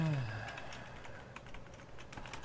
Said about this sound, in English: Sorry, I had to type something for you.